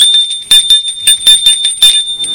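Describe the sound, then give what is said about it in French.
A doorbell rings with a rapid series of bright, high metallic rings. The repeated bursts are loud and sound alone, with no talking. “Alors, il sonne chez Gilles.”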